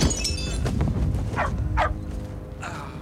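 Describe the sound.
A dog barking as children with bikes appear: a few sharp, high yips over dense, busy background noise.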